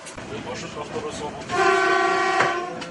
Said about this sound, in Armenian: Будьте осторожны, двери закрываются. Поезд отправится по работе.